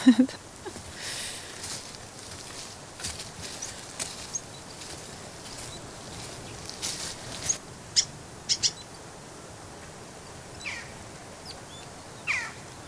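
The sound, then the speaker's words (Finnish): Jackdaw calls near its nest in a large hollow of a shoreline aspen: a few short, sharp calls, mostly in the second half, rising above a steady low hiss. “Se on naakka. Silloin on pesä tuossa rannan haavassa.”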